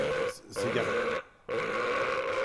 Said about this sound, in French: il faut que je rote, que je rote, que je rote.